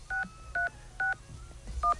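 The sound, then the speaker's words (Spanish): Telephone keypad DTMF tones as a number is dialed: four short, clear two-note beeps in a steady, evenly spaced rhythm over a faint low background, with no talking. “Voy a hacer una llamada definitiva. A ver si me lo coge.”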